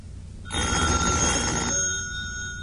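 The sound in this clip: A telephone rings once in a bright, trilling burst of steady tones lasting just over a second. Fainter tones linger afterward, with no voices.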